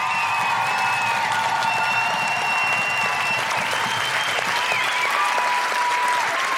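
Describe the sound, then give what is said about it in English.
Dense, sustained applause from an audience at a live show in Canberra for performer Grace Petrie; steady, loud clapping that carries without a break throughout. “Put your hands together and keep that noise coming for the incredible Grace Petrie!”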